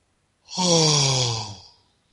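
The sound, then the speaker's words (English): A deep breath taken during a guided breathing exercise: a single long, audible sighing exhale, loud and breathy, with a voiced tone that drifts slightly lower as it fades. “first thing is to take a couple of deep breaths.”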